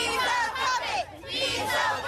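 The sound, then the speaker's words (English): A crowd protesting outside the White House, many loud voices shouting together in continuous bursts with brief dips between them. “A crowd outside the White House sounded off last night.”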